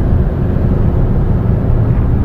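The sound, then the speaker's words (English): Loud, steady engine and road rumble from a VW Beetle accelerating in the left lane alongside a convoy of faster cars, a dense low drone that holds even throughout with no voices. “I'm going to get in the left lane, teach these guys a lesson. Show them what a VW Beetle can do.”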